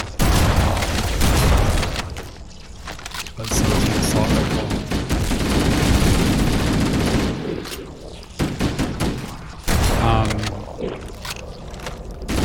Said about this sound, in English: The shotgun is good for killing hordes of little guys all at once.